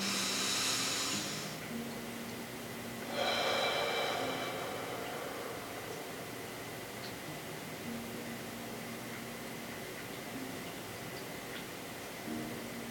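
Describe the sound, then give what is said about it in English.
Soft breathing during a guided energy-balancing tapping exercise: two faint, airy bursts of breath separated by a few seconds, over a low, steady background hum. “And then let's take a deep breath.”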